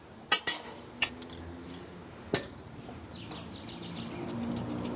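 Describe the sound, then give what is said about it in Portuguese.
A spoon clinks a few times against a pan of thickened cream as lemon zest is stirred in. The sharp metallic taps are scattered over a quiet kitchen background. “E eu vou acrescentar a casquinha do limão, com muito cuidado. Uma colher aqui, tá muito bom.”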